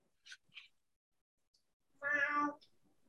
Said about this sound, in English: I'm going to name this cat Lyle.